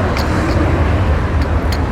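A city bus pulls up at a stop amid traffic. A loud, steady, low engine rumble runs throughout, with a few short higher-pitched noises over it.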